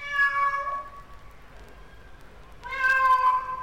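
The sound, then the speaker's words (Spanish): Cat meowing: two clear, high meows separated by a quiet gap, the second louder and slightly longer, with no other voices. “Y se fue el señor perro y al rato pasó el señor gato.”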